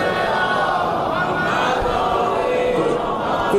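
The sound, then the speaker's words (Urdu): Many voices chant the salawat together during a Shia religious sermon about Karbala. The chant is a loud, sustained swell of massed voices that fills the whole moment at a fairly even level. “ایک نعرہ سلوات تو بھیج دیا کیجیے”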